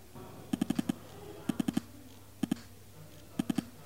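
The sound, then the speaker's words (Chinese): Buzzing of an OPPO Ace2 phone's vibration motor mimicking rifle and pistol fire in Game for Peace: short sharp pulses in clusters of five, four, two and three, crisp and rattling over a quiet hum. “在和平精英的时候呢，可以根据不同的枪械类型来产生不同震感。步枪是这样式儿的，手枪是这样的，”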